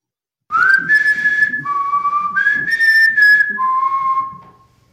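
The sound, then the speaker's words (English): Whistling recorded during a paranormal investigation at a house: a clear, loud whistled tune that opens with an upward slide, then steps between held higher and lower notes before fading away at the end. “This is the last clip I'm going to play for you guys. This is the same. It's a Landon House whistling again.”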